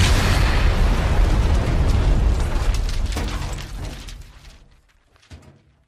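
A bomb blast explosion sound effect: a loud, broad roar that holds for several seconds and then slowly dies away, with a brief faint thump near the end.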